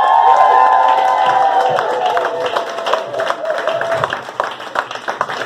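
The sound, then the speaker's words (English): Audience applause and cheering greet a comedian taking the stage, loud dense clapping mixed with shouts and whoops that gradually thins and grows more scattered. “please give it up and welcome Nathan Green!”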